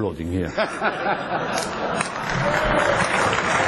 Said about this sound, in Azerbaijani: Sizi burada sonuncu dəfə də alqışlayırlar və müəyyən mənada mən həqiqətən də sizin burada olmağınızdan təəccüblənirəm.